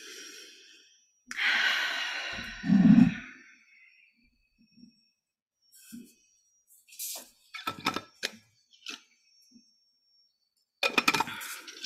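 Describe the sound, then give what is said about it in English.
Deep breathing at the start of a meditative channeling session: one long, heavy breath rises early and ends in a deeper rush, then long quiet gaps broken by a few short breathy bursts and small clicks. “I'm gonna start taking deep breaths.”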